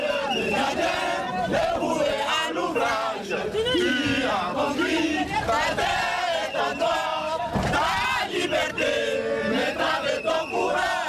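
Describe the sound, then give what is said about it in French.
A crowd sings the national anthem outside a courtroom as detainees are led to a prison van, many voices blending into loud, continuous, slightly ragged singing. “Le public les accompagne dans le fourgon, un car spécial pour les détenus en chantant l'hymne national.”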